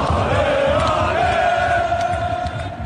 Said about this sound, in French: les supporters ont donné de la voix et l'image à retenir, c'est à la fin. En fait, les filles ont été saluées, leur public, le public toujours là malgré l'élimination.